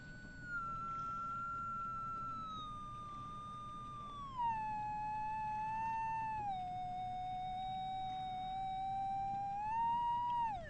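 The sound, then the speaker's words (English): A GSR2 biofeedback device worn on the fingers emits a steady electronic whistle that drops in pitch in several stepwise stages as the wearer relaxes, then rises briefly at the end, over a faint low background hum. “The thing about the GSR2 was that it was a little machine you put on your fingers. And if you get it, here, I'm going to put it on now so you can hear it.”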